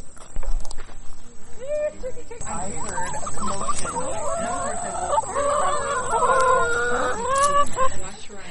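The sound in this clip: Chickens in a backyard run cluck and call continuously, with many short, overlapping squawks and warbling notes that grow busier midway. A thin, steady high whine runs underneath the whole time.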